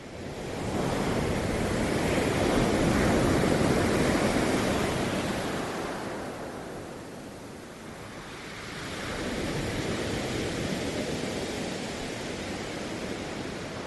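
Waves wash onto a beach in a broad, hissing roar that swells, eases off, then builds again more gently, with no voices.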